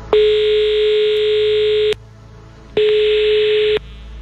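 A telephone tone sounds after a call is hung up: two loud, steady, buzzy tones at one pitch. The first lasts almost two seconds, then comes a pause, then a shorter second tone.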